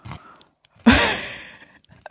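Someone bites into matzah, the unleavened cracker bread, making one sharp crunch that trails off over about half a second, with a few faint crackles and mouth sounds before and after.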